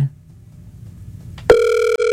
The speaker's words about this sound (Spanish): A ver, yo lo llamo. Yo arranco de una. Yo lo voy a llamar,